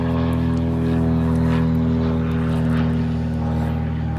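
A propeller airplane flies overhead with a loud, steady droning hum rich in low harmonics and an even engine tone throughout, with no talk.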